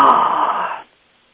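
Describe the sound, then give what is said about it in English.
A person breathes out with a gentle, breathy 'ha' sound. The single soft, steady exhale lasts under a second, then cuts off into silence. “Take a deep breath and breathe out with a gentle ha sound.”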